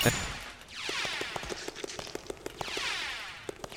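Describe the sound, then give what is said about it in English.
A yo-yo weapon fires non-stop in a video game, making a rapid, steady stream of short sharp pops layered over recurring sweeping whooshes. “And I'm just shooting my yo-yo non-stop, as you hear.”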